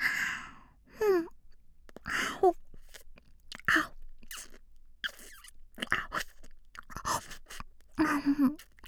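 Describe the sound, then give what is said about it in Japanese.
Wet ear-licking mouth sounds in ASMR, intermittent close smacks and slurps with breathy sighs and soft vocal murmurs between them, separated by short silences. “お兄ちゃんの耳もっと舐めていい？お兄ちゃんの耳美味しいんだもん。”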